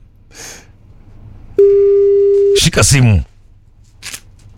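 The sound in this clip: A telephone line tone sounds while calling someone: a single steady, mid-pitched electronic tone holds for about a second, with brief voices before and after it.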